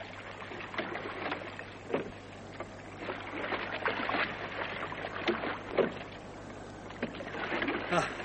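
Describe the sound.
Paddles rowing a boat on windless water, soft splashing strokes recurring at an uneven pace, fairly faint and steady throughout.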